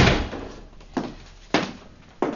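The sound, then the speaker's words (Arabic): A door being closed: several dull, abrupt thuds with low rumble, each rising sharply then fading, with no voices. “أغلق الباب.”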